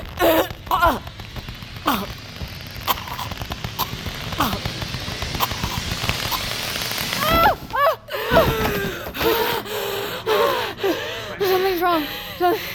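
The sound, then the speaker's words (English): A person choking and gasping for breath during a struggle: strained, rasping gasps and groans come in quick, uneven bursts with shuffling noise throughout, growing harsher and more broken toward the end. “You're choking me. I can't breathe.”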